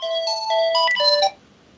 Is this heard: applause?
no